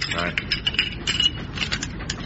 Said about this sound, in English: collect the rifle bolts. Throw them out of the door.